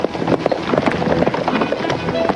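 Hooves of a cavalry column riding across a moonlit plain: many overlapping clip-clop hoofbeats in an uneven, continuous patter, fairly loud, with a breathy wind-like hiss underneath.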